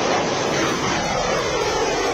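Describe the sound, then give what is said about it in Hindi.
Military aircraft roar overhead during a joint India–Japan air exercise at Jodhpur airbase, a broad, loud engine rumble that holds steady throughout with no voices. “Veer guardian युद्धाभ्यास में ये शौर्य की उड़ान है।”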